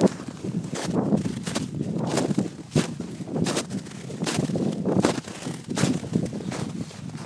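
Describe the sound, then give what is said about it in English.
Boots crunch through about two inches of snow while walking on Bleaklow on a cold winter day. Many soft crunching steps fall in a steady walking rhythm, with wind noise buffeting the microphone. “And I'll just get you some sounds of the things that we're walking through at the minute. Some nice snow.”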